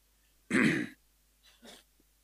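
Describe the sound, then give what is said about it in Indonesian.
A stifled sneeze that never fully comes out: one short, breathy, throaty burst, then two fainter softer puffs a moment later, each alone. “maaf, mau bersin gak jadi.”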